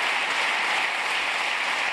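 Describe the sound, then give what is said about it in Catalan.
An audience applauds during a political speech, a continuous, even wash of many hands clapping at moderate level, with no break and no voice on top. “Ara estan aplaudint.”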